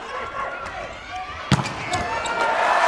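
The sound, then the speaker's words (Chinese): Wang Bin's serve in a China versus Japan volleyball match lands as a single sharp hit midway through, under steady commentary and crowd noise. “王斌的发球”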